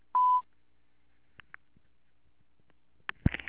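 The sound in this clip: A single steady voicemail beep sounds briefly, signalling the start of a message recording, followed by a short silence and a few faint clicks and rustles.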